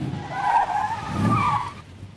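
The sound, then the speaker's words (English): Tires screech as a tow truck hauling a wrecked car pulls into a motel parking lot. A loud, sustained, wavering squeal over a low engine rumble lasts nearly two seconds, then cuts off. “Mar screeches into the parking lot of the Pink Cloud Motel. The driver's door of Orville's tow truck flings open as she does so.”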